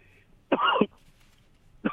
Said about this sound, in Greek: Να, εσύ, ας πούμε, έβηξες από το άγχος, από το κάτσε λίγο να καθαρίσει ο λαιμός